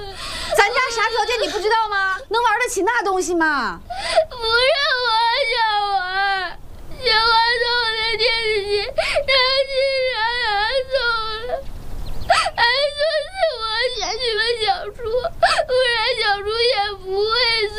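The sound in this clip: A child cries and whimpers in long, high-pitched wailing sobs that run almost without a break, with only short pauses for breath.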